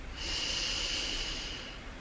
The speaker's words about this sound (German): Atme tief ein.